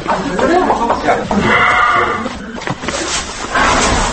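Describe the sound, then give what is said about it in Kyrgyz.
Neigh of Patron, a famous ten-year-old pacer horse: a loud, wavering, bleat-like whinny that stretches over several seconds. “Орто Азия боюнча алдына бир да жоргону чыгарбаган айтылуу патрон жоргосунун үнү.”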